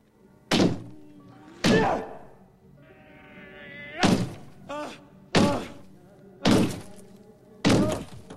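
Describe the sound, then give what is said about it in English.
A man's fist punching a wall, heard as a series of heavy, dull thumps at irregular intervals, each sharp at onset and fading quickly, with quieter stretches between. “The man punches his left hand at the wall.”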